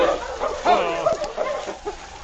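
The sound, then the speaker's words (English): A tracking dog that has lost the trail in a busy Gold Rush mining settlement whimpers and gives short yips. The high, whiny cries come in several bursts amid talk. “What's the matter with King, Sergeant? He found something? I'm afraid he's lost the trail.”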